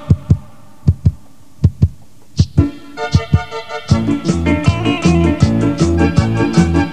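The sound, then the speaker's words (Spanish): Heartbeat thumps in double pulses open a 1984 song about a heart beating for love. Four paired beats sound alone, then music enters and builds into a full band over them. “Escucha los latidos, mi vida.”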